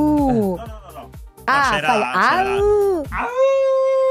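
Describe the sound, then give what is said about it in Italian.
A human voice imitates a wolf or husky howl in three loud, drawn-out vocal phrases with wavering tones that slide up and down in pitch, the last one holding a long, steady note. “Ma questo è un ululato di un lupo o di un husky? Perché è diverso.”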